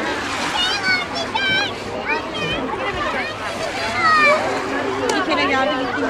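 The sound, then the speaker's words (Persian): Sea waves wash against the shore in a continuous splashing rush, while children and adults talk over the water throughout. “این صدای دریا”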